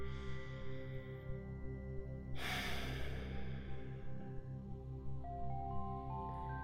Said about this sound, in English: take another deep breath in through the nose and out through the nose.